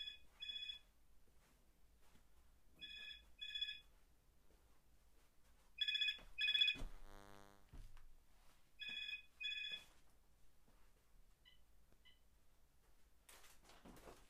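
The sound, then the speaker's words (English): A telephone rings in repeated double bursts, four rings spaced about three seconds apart. They are faint and heard alone without talk, with a brief rattling noise between the third and fourth rings. “And that's the phone ringing.”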